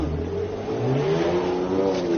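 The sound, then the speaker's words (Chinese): A car engine revs and accelerates as a vehicle is driven out at a police drink-driving checkpoint. It is a steady mid-pitched whir that grows a little louder partway through, with no voices. “那个谁，郑开过来，把这个车给咱开出来。”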